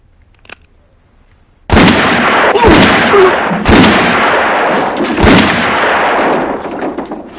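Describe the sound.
Gunshots in a film scene. After near silence, four loud, sharp blasts ring out over about four seconds. Each leaves a long rumbling tail that keeps the sound heavy between shots.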